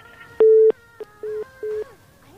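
Telephone busy tone after a call is cut off: steady mid-pitched electronic beeps, three distinct tones of a few tenths of a second each with a very brief blip between the first two, loud and with no talk.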